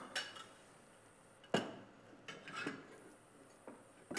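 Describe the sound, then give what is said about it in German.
An egg is lightly beaten into dough: faint, sparse clinks and taps of a utensil against a bowl, spaced irregularly, with one sharper knock among them. “So, und ich fange an, hier jetzt schon mal den Teig, das Ei leicht zu verqueren.”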